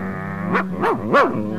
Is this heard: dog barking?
yes